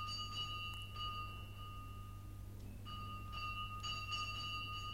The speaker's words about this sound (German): Da läutete es 2-mal kurz nacheinander an der Pforte.